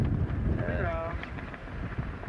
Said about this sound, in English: Over the deck we've got about 40 knots of wind, which is gale force.